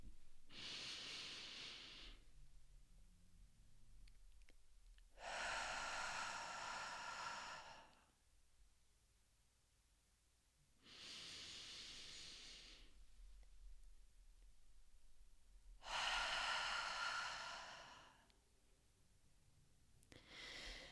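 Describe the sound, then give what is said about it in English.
Slow box breathing: four long, airy breaths in and out, each lasting two to three seconds, separated by quiet holds of similar length, with no talking. “four counts in, hold it for four counts, let it out for four counts, hold it for four counts, and then repeat. So it sounds something like this.”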